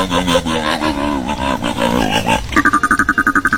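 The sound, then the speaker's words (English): A sea lion call: a loud, harmonic, roaring bellow that wavers in pitch, then breaks into a rapid run of short, pulsed barks. “Monday's winner, Shelby, knew that this is the sound of a sea lion.”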